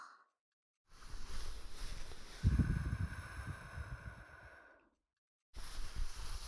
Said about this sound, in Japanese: ふう、息を吹きかけるのか。こうか。